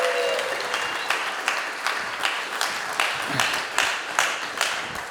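A church audience applauds to welcome its pastor at a Fourth of July service. The clapping is dense and steady throughout, with louder accents recurring at a regular pace.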